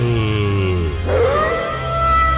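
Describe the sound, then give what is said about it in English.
A dog whimpers and whines, not wanting to be petted, giving loud, drawn-out whines with a wavering tone that slides in pitch. “That dog does not want to be petted.”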